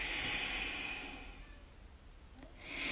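A long breath exhaled during a yoga twist: a soft, airy hiss that is strongest at the start, fades steadily, then swells again briefly near the end.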